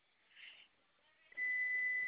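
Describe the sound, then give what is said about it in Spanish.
Electronic beeping from equipment near a rack: a faint, steady, high-pitched tone sets in about halfway through and holds unbroken to the end. “Es que oigo que algo como que pita, pero no sé si sea eso.”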